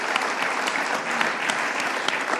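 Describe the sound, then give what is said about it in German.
Dense applause from an audience cheering lacrosse players seated among them, a steady crackle of many hands clapping with no break across the whole stretch. “Oh, ein dicker Applaus, steht mal auf. Alle mal.”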